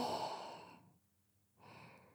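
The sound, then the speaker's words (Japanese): A deep, slow, breathy exhale fades into near silence, then a fresh breath starts softly, all quiet and close. “深呼吸してください。吸って、吐いて。”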